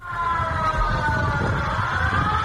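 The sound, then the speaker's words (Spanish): Earthquake warning sirens sound in Guatemala after a magnitude 7.4 quake. The wail is loud and continuous, with a steady tone that wavers slightly in pitch and never stops. “En este último país centroamericano saltaban las sirenas de alerta sísmica.”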